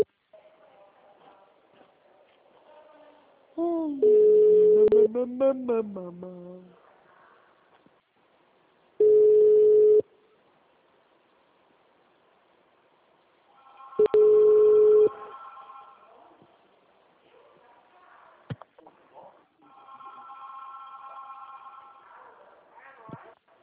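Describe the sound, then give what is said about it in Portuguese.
Telephone tones after a dropped call: three long, steady, loud tone bursts, evenly spaced, with stretches of talk between and after them. “caiu a ligação”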